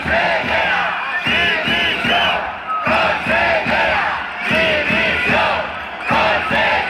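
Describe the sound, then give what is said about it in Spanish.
Hundreds of teachers protesting in Valencia chant together in rhythmic, repeated phrases. Loud bursts of massed voices are separated by short pauses. “Centenares de docentes se concentraban en Valencia, de donde es ese sonido, ante la Generalitat.”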